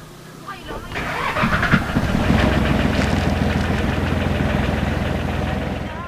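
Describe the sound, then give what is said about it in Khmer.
Engine rumble from a fishing boat out of a small fishing village, heading across the South China Sea off Palawan's west coast. The drone swells over the first second or so, then holds a steady, noisy roar. “ទូកមកពីភូមិ Maracas ជាភូមិនេសាទតូចមួយបានតម្រង់ទៅផ្ទៃទឹកនៃសមុទ្រចិនខាងត្បូងនៅមុខឆ្នេរសមុទ្រខាងលិចនៃកោះប៉ាឡាវ៉ាន់”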